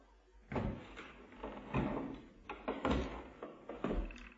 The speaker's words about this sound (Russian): Поди посмотри, кто там стучит.